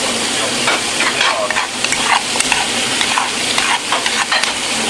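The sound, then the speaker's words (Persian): Onions sizzle steadily in a pan as they fry toward half-browned, with a constant bright hiss. Intermittent scraping strokes from slow stirring run through it, and no one speaks. “خب آروم پیازم رو هم میزنم.”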